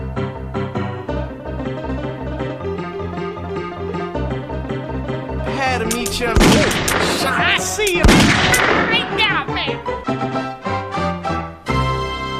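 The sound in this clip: Gunfire in a video game shootout: a cluster of sharp shots and booming blasts erupts in the middle, over a steady rhythmic music track that runs throughout.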